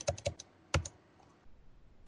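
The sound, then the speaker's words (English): Typing on a computer keyboard with a faulty U key: a few sharp, dry key clicks come in a quick early cluster, then a pause of near quiet before one last click at the end. “Why is my U key not working? I have to type U at least 3 times.”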